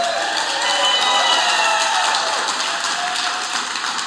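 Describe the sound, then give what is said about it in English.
A church audience applauds to welcome listeners: a dense, loud, sustained wash of clapping that holds steady throughout with little change in intensity. “So New Song, would you do me a favor and help me to welcome all of them right now? Let's give them a hand.”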